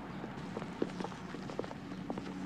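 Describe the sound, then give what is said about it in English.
Soft footsteps of two people strolling down a park path, an irregular patter of light steps over a low, steady background hum. “They stand up. Their arms touching, they stroll off down the path.”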